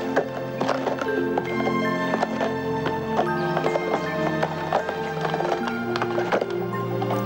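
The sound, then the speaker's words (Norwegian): Horse hooves clip-clop at a slow walking pace as a rider approaches a castle entrance, the steady hoofbeats repeating evenly and fairly loud, with a horse's whinny. “Dronningen rir sakte opp mot inngangen, fulgt av muskepotene, hvor en tjener tar kappen hennes.”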